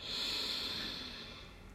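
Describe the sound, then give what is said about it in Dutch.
A long, steady breath out through the mouth during a guided breathing exercise, a soft, airy hiss that holds and then slowly fades over under two seconds. “En door je mond mag je even goed uitblazen en je maakt het geluid.”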